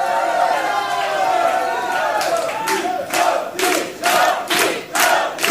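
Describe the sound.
Crowd chanting at a rock and roll concert, with loud rhythmic bursts of massed voices building through the second half after a steadier murmur.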